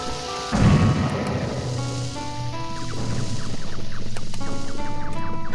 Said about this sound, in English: So I'm going to, using Olimar, set off nearby bomb rocks to give us some space to work with.